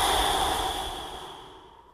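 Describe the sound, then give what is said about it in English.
A complete exhale through the mouth, a soft breathy rush of air that starts strongest and slowly fades away over about two seconds, heard alone. “Let me show you what it sounds like first, and then I will count for you and we can do it together. So first, exhale completely through your mouth.”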